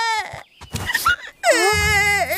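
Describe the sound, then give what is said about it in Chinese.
A child cries loudly over a broken toy robot, with a long, wavering wail toward the end and a shorter cry at the start, separated by brief talk. “孩子别哭”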